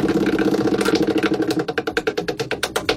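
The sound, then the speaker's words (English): A radio show's prize wheel being spun, giving a rapid, even run of many sharp ticks that grow crisper and more distinct as it turns. “All right, let's spin tonight's wheel.”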